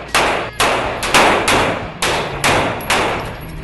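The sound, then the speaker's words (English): Gunshots at a shooting range: seven sharp, loud reports fired in a steady rhythm about half a second apart. Each crack decays quickly before the next, and no voices are heard. “This is not girl shooting. This is good shooting.”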